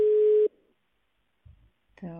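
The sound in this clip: A telephone tone sounds during an unanswered call, a single short, steady tone that cuts off into near silence before a voice begins speaking.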